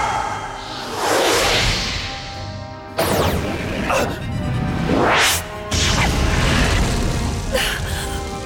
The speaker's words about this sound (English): This is my new weapon, a massive slingshot by the name of Kabuto. Behold its awesome power! Special attack! Firebird Star!